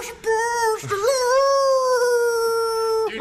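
A dog howls along to a love song: a short tonal howl breaks off, then a long, steady, rich-toned howl holds at one pitch for about two seconds, loud and clear.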